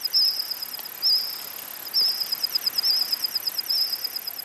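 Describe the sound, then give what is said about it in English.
AI-modeled calls of insects that lived alongside dinosaurs, heard as high, rapid chirping trills that repeat in short bursts against a quiet background. “Years ago, the forest may have sounded like this.”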